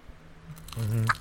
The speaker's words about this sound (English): That's all crust right there. That's a crust bite. You can hear that crust crackle.